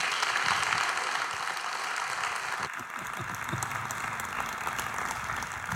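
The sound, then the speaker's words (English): Warm applause from a church audience welcoming a guest speaker: dense, steady clapping that fills the whole stretch at an even, moderate level with no voices over it. “Would you give Jack Deere a really warm LaCroix welcome?”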